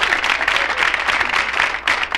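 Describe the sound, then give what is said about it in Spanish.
Applause from a comedy show audience greeting the Chilean contestant, a dense, steady wash of many hands clapping with a few brief surges across about two seconds. “Aplauso para el representante chileno.”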